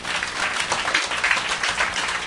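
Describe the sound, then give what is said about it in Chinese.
Audience applause for diamond-rank members standing at the back of a meeting: dense, continuous clapping that holds at an even, fairly loud level from start to finish. “我哋俾掌声后边啲钻石。”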